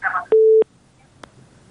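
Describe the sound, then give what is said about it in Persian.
A single steady, mid-pitched telephone tone sounds after a call disconnects, lasting about a third of a second, followed later by one faint click. “تماس چون قطع شد تماس بعدی را میگیریم”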